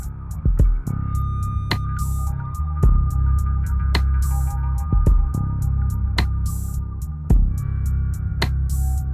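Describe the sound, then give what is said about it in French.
A blood pressure monitor starts up while watching a patient in a nurse's care, giving a steady low hum with rhythmic throbbing and a series of sharp clicks repeating throughout. “J'ai branché l'appareil à tension, voilà, qui va démarrer et nous permettre de surveiller le patient pendant cette heure-là.”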